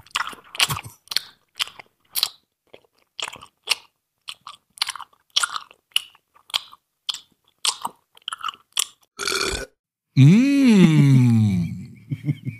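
Crunchy chewing of a lemon snack, eaten close to the microphone: many sharp, irregular bites and munches, then a short rough burst and a drawn-out voiced moan whose pitch rises and then falls.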